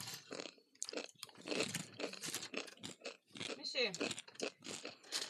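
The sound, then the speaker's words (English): Crisp crunching and chewing of dry bulgogi-flavored ramen noodles eaten without seasoning, many irregular crunchy bites mixed with people talking. “Yeah, and these are bulgogi. Aw, man, I got one with no flavoring on it. I just got dry ramens.”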